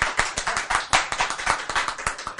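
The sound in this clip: Clapping hands, an audience applauding in a steady, dense rhythm of sharp claps, fairly loud and sustained throughout with no voices over it.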